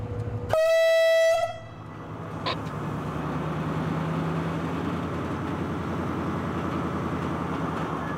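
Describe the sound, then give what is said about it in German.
A train horn sounds in one loud, sustained blast of about a second as a train sets off on a slow shunting run out of a terminal at no more than 5 km/h, followed by a steady low rolling rumble. “Ja, Rangierfahrt erlaubt, geht los.”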